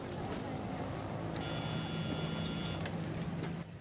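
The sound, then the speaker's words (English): An electric doorbell buzzer is pressed at a small house's screen door, giving one sustained, bright buzz of about one and a half seconds over a steady low background hum. “He presses the buzzer again.”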